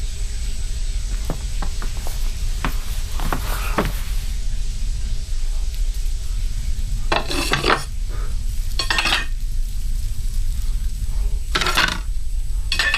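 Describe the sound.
Clattering of plates and dishes: a few sharp clinks and knocks early on, then several louder, rattling bursts of crockery. No voices are heard.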